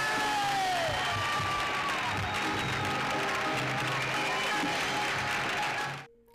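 A live audience applauds and cheers, a dense wash of clapping with a few shouts mixed in, holding steady before fading out quickly at the end.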